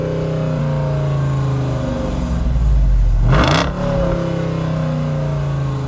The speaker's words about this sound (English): That's a Hemi, isn't it? Oh, yeah. Is that a Jeep? Did you drive the new Hemi Jeep? The 392 concept.